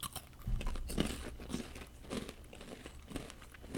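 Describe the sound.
Crunching on a spicy, heavily seasoned snack that tastes like corn nuts: a faint, irregular run of crisp bites and crinkly chewing crunches, with no talking.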